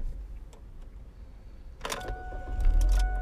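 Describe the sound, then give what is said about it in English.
A car engine is started: a short mechanical burst as the starter catches, followed by a low, steady engine rumble that grows slightly louder. “sorry, I just turned my car on because I didn't want to drain the battery”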